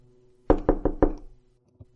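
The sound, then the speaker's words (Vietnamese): Urgent knocking on a house door from outside: four quick, loud raps in a rapid burst, then a pause and one faint final knock, with no voices. “Ông Tư đang ngủ thì nghe tiếng gõ cửa dồn dập ở bên ngoài, kèm theo cái giọng hốt hoảng của Thành.”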